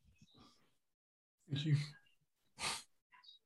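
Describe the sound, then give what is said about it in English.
Deep breathing to release tension held in the chest: two long, loud, airy breaths follow a few soft breathy sounds and end with a brief faint exhale, with no talk over them. “So, like, take that time to breathe, bro.”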